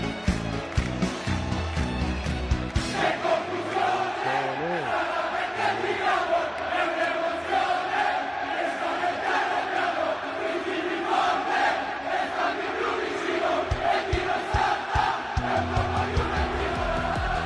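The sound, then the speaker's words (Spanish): A football crowd at San Siro chants during a Milan versus Juventus match. Thousands of voices sing loudly and continuously in a rhythmic stadium chant that fills the whole stretch. “les había prometido yo que si lo encontrábamos rescataríamos este sonido, porque allí, en San Siro, en un Milan-Juve, fue donde primero se cantó.”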